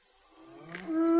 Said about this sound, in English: why is it a cow stops? Why does it stop what? Well, it seems to get a bit of the way, and then it just seems to stop.